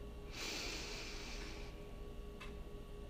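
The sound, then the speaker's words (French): A slow breath drawn in through the nose during a relaxation exercise, a soft, airy rush lasting over a second, followed by a brief faint click in otherwise quiet surroundings. “Inspire pour 4 secondes par le nez.”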